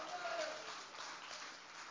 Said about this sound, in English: Would you clap your hands and shout hallelujah?